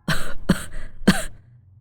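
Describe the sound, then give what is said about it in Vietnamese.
Three dry, hacking coughs from an old village chief with an irritated throat, coming in quick succession with short pauses between, sharp and fairly loud with no talking. “Hỏi xong câu ấy, ông cũng bất giác ho khan lên vài tiếng.”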